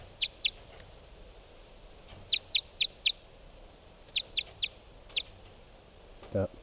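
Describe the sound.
A bird calls in short, sharp, high-pitched chirps, about ten in all. They come in clusters of two to four with pauses between, over a faint steady background hiss.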